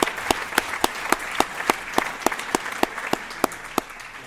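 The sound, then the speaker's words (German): Audience applause at the Night of the Trail 2023 running event, heard as sharp, evenly spaced claps in a steady rhythmic beat over a low background of scattered clapping and crowd noise. “Das ist der Wahnsinn, sogar Trail-WM. Ja, da muss man applaudieren.”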